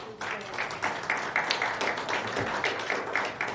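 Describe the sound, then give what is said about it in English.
A church audience applauds in a sustained round of clapping, dense and uneven, with brief swells of louder claps. “once again, you never applause for my sermons”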